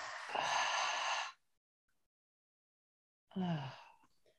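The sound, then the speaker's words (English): Two audible breaths out through the nose and mouth, separated by a long silent pause. The first is a longer, airy exhale and the second is a shorter, slightly voiced sigh that trails off. “and then exhaling, releasing through the nose, the mouth.”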